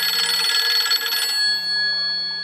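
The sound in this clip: A radio show's theme jingle with bright, bell-like ringing tones that pulse rapidly at first, then settle into sustained high notes over a low hum.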